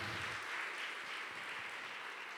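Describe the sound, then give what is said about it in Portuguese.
Congregation at a church service applauding, a steady, fairly faint patter of many hands clapping throughout. “Aplauda ao Senhor, porque são boas notícias.”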